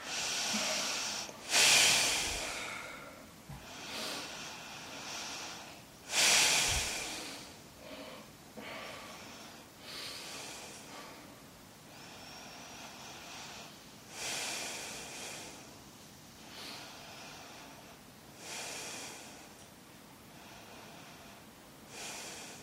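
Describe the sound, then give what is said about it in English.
Slow, deep breathing during a yoga backbend session: many long, soft, hissing inhales and exhales at an even pace, with a few sharper, louder breaths standing out. “Return to your breath. Slow it down. Each inhale draws more air into your lungs. Each exhale brings a more depth of emptiness.”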